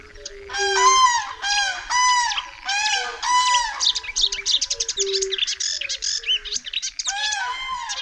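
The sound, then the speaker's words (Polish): Varied song of a marsh warbler, a bird that mimics many others, at a misty forest wetland. Loud, repeated ringing phrases give way to a fast chattering run, then the phrases return. “Wysłuchać tu można urozmaiconej pieśni łozówki, która potrafi naśladować głosy wielu naszych ptaków.”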